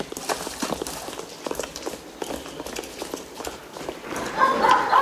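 Running footsteps of several men along a narrow sewer walkway: many quick, fairly even footfalls in a steady rhythm, growing louder toward the end.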